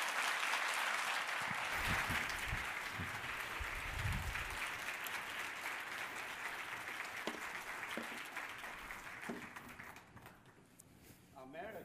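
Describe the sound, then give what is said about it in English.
An audience applauds to welcome a family on stage, with steady clapping that is thick at first and then thins out, as voices talk beneath it. “Let's welcome Yuan family. 우리 Yuan family, 큰 박수로 환영해 주시기 바랍니다.”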